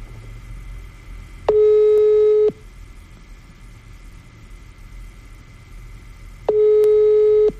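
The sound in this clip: Telephone line tone after dialing a call that goes unanswered: two steady, mid-pitched beeps about a second long, separated by a long pause, over a constant low hum.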